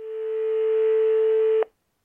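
A telephone dial tone sounds as a call is about to be placed: one steady, loud tone held for about a second and a half, then cut off abruptly.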